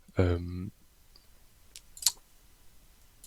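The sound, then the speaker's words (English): Computer mouse clicking an on-screen button while browsing a data catalog, a few sharp, dry clicks following a brief voice at the start. “What I simply wanted to show you is that, so I click on that button”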